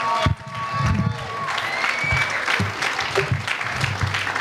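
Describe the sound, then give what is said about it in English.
A comedy club audience in Muskegon applauds and cheers as a comedian is introduced. A steady, dense wash of clapping is mixed with crowd whoops and runs throughout. “Please put your hands together from St. Louis, the Fry Man. Get loud for him.”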